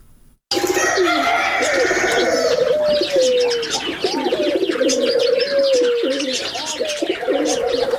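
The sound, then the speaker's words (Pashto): Pigeons and doves cooing among other chirping birds at a bird zoo in Tarinkot, Uruzgan province, Afghanistan; a dense, continuous chorus of calls begins abruptly after a brief quiet moment. “د اورزګان ولایت مرکز ترنکوټ شاراډون په سر مرغاب سیمه کې د دنګو غرونو په لمنه او د شنو باغونو په میانځ کې د لسګونه ډولو مرغانو دا ژوبڼ 45 کلن”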